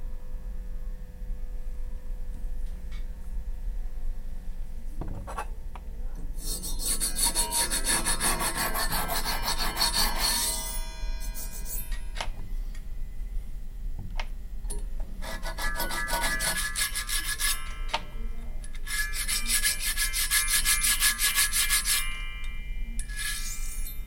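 Filing on a part of a disassembled music machine in a workshop: three long bursts of rough, rasping back-and-forth strokes separated by quieter pauses, with a few faint clicks and taps between them.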